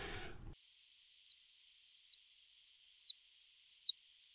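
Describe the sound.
Autumn call of a chiffchaff: four thin, straight, plaintive high peeps, evenly spaced about a second apart and fairly faint, following a brief low rustle at the start.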